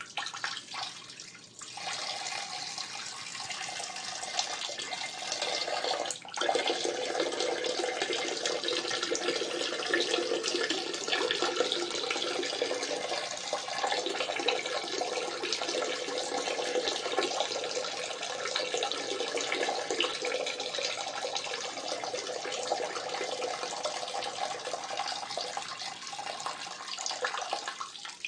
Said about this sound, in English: like a piss stream, just so we can kind of enjoy the audio, the sound of an alpha pissing.